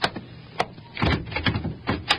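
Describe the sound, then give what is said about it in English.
A stuck, locked door is tried: a few sharp clunks and bursts of rattling as it is pushed and jiggled, moderately loud and uneven, with no voices. “Hey, this door. It won't open. Maybe it's stuck.”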